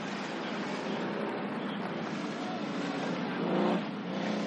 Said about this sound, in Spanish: Kelly se acerca en un jeep a Grand Joe.